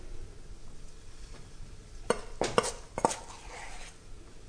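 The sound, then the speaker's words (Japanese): Spoon clinks against a frying pan as quartered pieces of dough are dropped in one at a time. A few sharp knocks sound in close succession mid-clip over a soft, steady background hiss. “先ほどの生地にスプーンで十字に切れ目を入れて4等分に分けたものを一つずつフライパンに入れていきます。”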